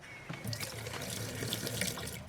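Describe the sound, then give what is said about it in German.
Tap water runs into a glass as it is filled, making a steady, continuous splashing rush from start to finish with no voices. “hier, füll dieses Glas mal mit Wasser.”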